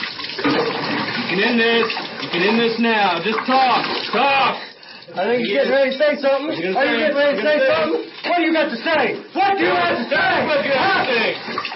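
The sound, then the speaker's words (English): Water is poured into a person's nose and throat as trained military personnel waterboard a journalist with a cloth stuffed in his mouth. The watery splashing runs almost continuously beneath a man's voice giving sharp commands. “That's the sound of waterboarding performed by trained military personnel”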